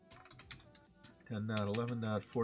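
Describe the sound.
Quiet clicking keystrokes on a computer keyboard during an IPv4 network configuration exercise, a short burst of light taps before a voice starts talking over it.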